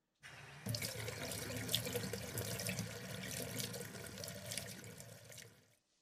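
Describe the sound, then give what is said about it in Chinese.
Water gushing from a tap as a bathtub is filled for a bath: a steady rushing hiss that starts abruptly, grows fuller after a moment, holds evenly, then tapers off and stops. “你稍等一下，我帮你放洗澡水。”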